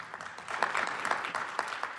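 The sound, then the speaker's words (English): Audience applause at a panel event as speakers are introduced: crisp, scattered clapping that swells after the first moment and continues busily and fairly evenly, with no talking over it. “And then we have, yes, claps.”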